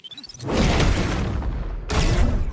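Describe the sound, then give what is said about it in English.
A bomb explodes, a circular bomb stuck to a chain, in a forest fight. Soft thuds lead into a loud, broad roaring blast that holds, then a second heavy surge of rumble and debris. “The predator looks at the chain and sees the circular bomb stuck to it.”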